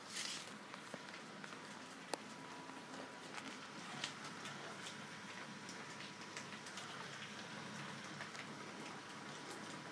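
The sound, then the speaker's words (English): Heavy rain patters outside, heard from a building lobby as a faint, steady hiss dotted with scattered sharp drips that runs unbroken throughout, with no talk. “Not sure if you can hear the sound of the pitter-patter of the rain. It's pretty loud, and I think there might be rain coming in”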